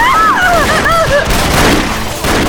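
A constant barrage of gunfire erupts during a shootout with revolvers. The shots merge into a dense, loud, continuous crackle and roar with no clear gaps. Brief whining tones cut through early on.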